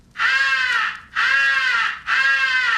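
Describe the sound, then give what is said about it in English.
Three long, drawn-out caws from a highball crow call, the kind used to draw the attention of distant crows. They are loud, nasal and harmonic, evenly spaced with short gaps, and heard alone. “The highball crow call is sometimes advocated for attracting the attention of distant crows. Do not use this call.”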